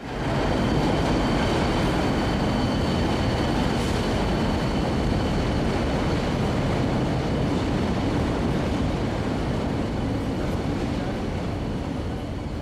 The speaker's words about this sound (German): Wir stehen jetzt in diesem alten, großen, dunklen Bahnhof Westland Row.